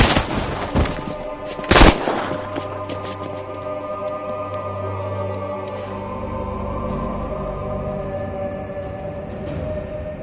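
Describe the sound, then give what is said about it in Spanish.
A gunshot fired at point-blank range by a bearded man during a fight with templar knights. Two sharp, cracking bangs ring out, the second louder, followed by a steady low rumble that carries on without voices. “El hombre de la barba le dispara a quemarropa antes de huir.”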